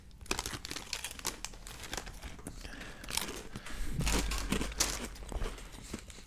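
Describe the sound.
Crinkling plastic packaging as a packet of sour sweets is turned over and opened from the bottom, a dense, continuous crackle of rustles and sharp crinkles that swells louder in a burst near the end, with no voices.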